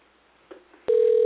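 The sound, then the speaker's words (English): A telephone line is heard as a number is dialed. A faint click and a short blip come first. Then a loud, steady single-pitched tone begins abruptly and runs unbroken to the end. “If I dialed the right number”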